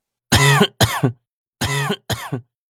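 Four harsh coughs in two pairs, a fit of coughing after a gulp of undiluted liquor. Each burst is rough and voiced, and the pairs are separated by a short silence.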